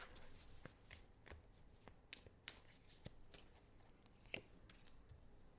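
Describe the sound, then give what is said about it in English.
Cards are shuffled and pulled from a deck in a soft, continuous run of papery riffles and flicks. A few sharper snaps stand out, all faint and heard without talk. “you can pull two or three cards and Okay. we'll see what they say.”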